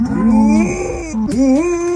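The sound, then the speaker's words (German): A dog moos in imitation of cows instead of barking, giving two loud, drawn-out, tonal calls separated by a brief pause, the second one bending upward. “Sie liebt Kühe und wenn die muhen, muss Lucy immer mitmachen. Statt bellen klingt das also so.”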